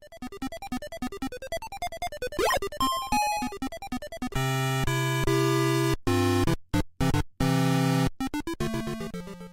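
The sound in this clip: Electronic sounds and music from the Moonwalker arcade video game: rapid staccato bleeps and a quick sweeping zap, then loud, buzzy sustained chords cut by abrupt silences, ending in another run of fast bleeps.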